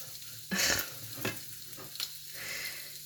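Breakfast cooks in a pan with a faint sizzle of frying under quiet stirring and scraping. A few louder bursts of spatula strokes rise and fall against the low hiss.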